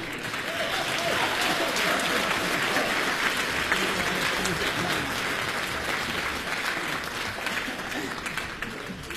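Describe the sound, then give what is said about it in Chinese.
Steady applause from an audience welcoming a performer on a Beijing variety show, a thick continuous rush of clapping that holds level and tapers slightly at the end. “哎呦，我谢谢您的鼓掌欢迎。”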